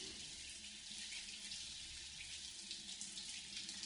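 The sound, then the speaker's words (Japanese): Hot water runs steadily from a tap, a continuous soft hissing splash that stays even throughout, faint and alone with no voices. “お湯が流れる。”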